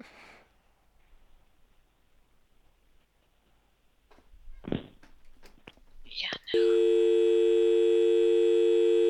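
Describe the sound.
A telephone busy signal sounds after a call is hung up. Faint rustles and a few sharp clicks come first, then a loud, steady electronic tone takes over abruptly and holds to the end.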